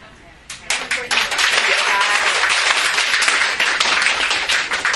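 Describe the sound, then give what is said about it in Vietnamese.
Applause from a Buddhist study class at the close of a teaching session in Texas: a dense, steady wash of many hands clapping that begins abruptly and stays loud and even to the end. “Vỗ tay là thực tế.”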